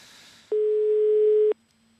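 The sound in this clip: An iPhone ringing, heard as a single sustained electronic tone lasting about a second. It is steady, mid-pitched and clean, with sudden onset and cutoff, and stands alone over near silence.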